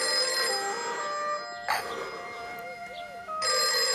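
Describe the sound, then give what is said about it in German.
A telephone rings in long, steady harmonic bursts, with a brief gap and quieter sounds between the rings. “Ein Telefon? Es gibt hier ein Telefon?”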